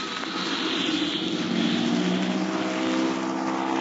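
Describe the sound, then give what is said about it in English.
A propeller airplane takes off over trees, its engine giving a steady, loud droning roar that holds throughout with no voices. “They're going to have a mighty tough time to make a quick takeoff to clear those trees.”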